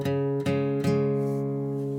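Guitar bass strings plucked with a thumb pick give three notes with crisp, defined attacks, each ringing out with a full, sustained tone rich in overtones.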